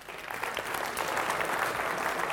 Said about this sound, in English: All right, give him a round of applause.